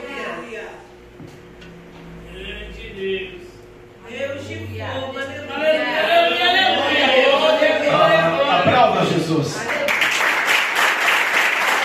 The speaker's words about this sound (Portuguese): Glória a Deus, pode aplaudir Jesus. A Jesus a honra, a glória e o louvor. Os aplausos a Jesus, aleluia.